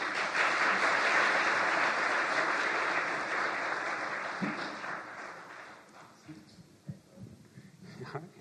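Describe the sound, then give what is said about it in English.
Audience applause welcoming an artist to speak at a church chapel service, a dense, sustained clatter of many hands that gradually thins and fades toward the end. “And so let's give Frank a warm welcome.”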